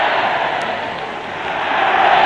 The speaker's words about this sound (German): immer wieder neue Heilrufe. Unsere Loge wird auch schon allmählich gestürmt von draußen her. Das Publikum steht, steht, steht.